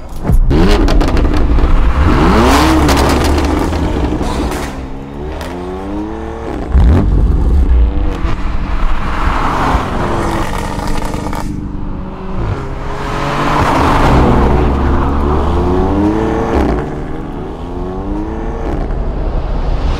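A Volkswagen Golf's engine revs loudly again and again, its pitch climbing and falling with each rev, with no talk over it.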